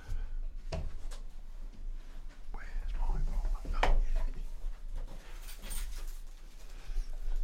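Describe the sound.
Rummaging noises from someone searching for a misplaced folder: irregular rustling, rubbing and soft knocks of papers and objects being shuffled about, moderately loud and continuous, with a few sharper bumps.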